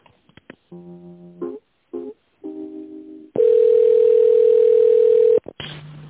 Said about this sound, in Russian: Оставайтесь на линии, перевожу.